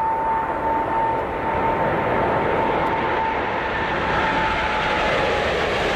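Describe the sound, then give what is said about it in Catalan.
An airplane flies past with a loud, steady engine drone and a faint sustained whine running underneath. The sound stays constant for the whole stretch, with no voices. “això és un avió, està volant, segur que vola”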